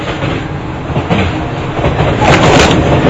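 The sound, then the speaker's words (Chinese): A passenger train heading to a hometown rumbles loudly and steadily throughout, a dense rattling roar with no breaks and no speech. “我在火车上回老家。”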